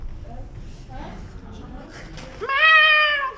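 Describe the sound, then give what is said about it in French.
An injured cat gives a single loud, drawn-out meow with a clear tonal quality. It comes right after a stretch of people talking. “C'est un chat”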